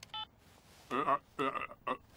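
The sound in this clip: A phone keypad gives one short electronic beep as the green call button is pressed, and a person then speaks a few phrases.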